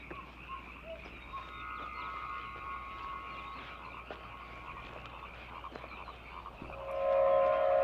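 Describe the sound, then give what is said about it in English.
Frogs croaking at a site littered with dead snakes and animals, a faint continuous chorus of repeated croaks and trills that swells louder toward the end, with no talk. “You can hear the frogs in the background.”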